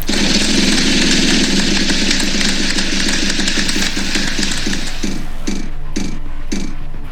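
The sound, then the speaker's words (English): A big wheel spins with loud, rapid ratcheting clicks that gradually slow down, the ticks spacing out near the end. “Did you just spin a big wheel?”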